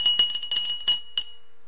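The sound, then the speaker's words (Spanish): Bell rung by hand with a bright, high metallic tone: many quick strikes over about a second, a final single strike, then the ring fades out. “Entonces tocaré de nuevo la campana para que lo sepan.”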